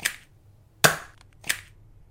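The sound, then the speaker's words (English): Three sharp pops from a toy dart gun firing darts, each a crisp snap with a short fading tail, spaced out over about two seconds. “Let me help. How? By shooting you with darts!”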